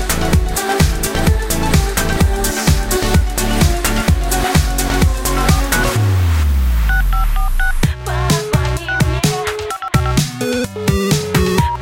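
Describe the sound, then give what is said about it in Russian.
Telephone keypad dialing tones beep rapidly over a driving, rhythmic music track, pausing for a swooping low whoosh midway before the beeps resume. “Пусть над этой звездной бездной вдруг раздастся гром небесный. Телефонного звонка.”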